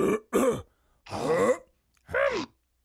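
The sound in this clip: A voice imitates throat clearing in four rough, guttural hacking bursts: two short ones close together, then two longer ones separated by short silences.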